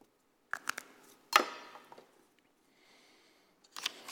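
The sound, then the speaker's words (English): Handwriting strokes as a word is written by hand: a few short, scratchy taps and strokes in separate bursts, with a faint thin squeak in between, fairly quiet overall. “I'll just write habits.”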